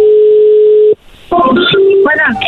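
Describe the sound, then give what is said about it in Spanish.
A telephone tone sounds as a call is placed: a steady, loud tone holds for nearly a second and then cuts off abruptly, followed by a brief gap and then a voice. “Vamos a llamarle a esta mujer y a ver qué sucede, ¿ok?”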